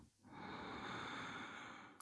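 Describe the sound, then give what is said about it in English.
A single deep inhale through the nose during a standing meditation: one long, soft, airy hiss that swells quickly and holds steady for nearly two seconds, faint and alone. “let's take a really deep breath in through the nose”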